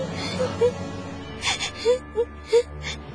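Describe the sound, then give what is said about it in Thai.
A frightened child cries in short, breathy whimpers and wails. Several brief sobs come in quick succession, broken by gasping breaths, against a quiet background. “เด็กนี่เริ่มร้องไห้แสดงว่าเริ่มหายตกใจแล้ว”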